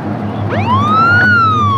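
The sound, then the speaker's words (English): A police car siren sounds as the car follows a truck down a country road: one loud wail that rises steeply, then slides gently downward, with no other sounds. “A police car follows him.”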